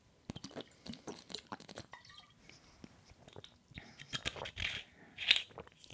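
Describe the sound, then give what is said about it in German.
Someone takes a sip of a drink, with soft, irregular wet mouth and swallowing noises that stay quiet apart from a brief louder burst near the end. “Ich muss aber erstmal zwischendurch einen Schluck trinken.”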